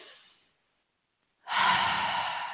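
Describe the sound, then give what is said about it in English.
Slow, deep breathing during a guided meditation: one breath trails off, a second of silence follows, then a long, loud, airy breath holds steady to the end. “begin to breathe with me into the heart.”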